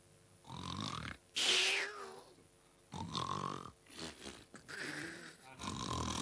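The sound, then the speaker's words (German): A voice actor imitates exaggerated, loud snoring for a character who is only pretending to sleep. Several rough, rasping snorts and grunting breaths come in an uneven rhythm. “Schnarch nur. Ich merke schon, dass du noch wach bist.”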